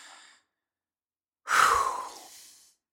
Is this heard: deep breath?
yes